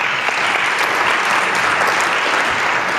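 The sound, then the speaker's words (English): Audience applause welcoming a speaker at an event in Alaska: loud, dense, steady clapping from many hands, holding at an even level for about three seconds with no voices over it. “Please join me in welcoming him here to Alaska.”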